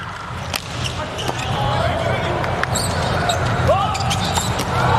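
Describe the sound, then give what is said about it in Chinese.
Sharp ball impacts from a volleyball serve struck by Leon in a Poland versus Slovenia match, a few thumps standing out over a steady roar of crowd noise with a commentator talking. “莱昂的发球”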